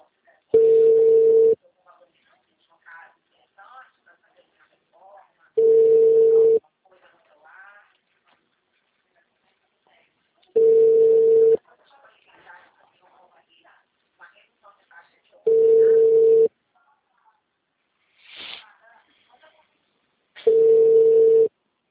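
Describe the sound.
Unanswered telephone ringing: five evenly spaced ring tones of about a second each, with faint voices talking in the gaps between rings.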